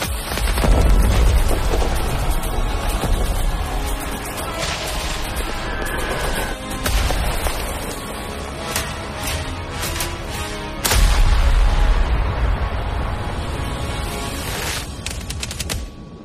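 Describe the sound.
Heavy battle din of World War I tanks firing shots across a trench battlefield in a video game trailer: dense, loud booms and rattling gunfire over a constant deep rumble, with a fresh surge of blasts partway through.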